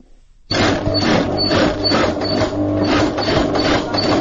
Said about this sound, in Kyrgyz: Биз азыр элден заказ алып, шым тигип жатабыз.